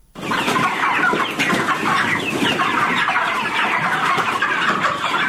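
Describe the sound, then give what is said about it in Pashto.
Thousands of broiler chickens cluck on a poultry farm in Kandahar's Dand district, a dense, loud and continuous chatter of overlapping calls that never lets up, with no talk. “د کندهار په ډنډ ولسوالۍ کې د چرګانو د فارم کې 3,500 ماشيني چرګان ساتل کیږي”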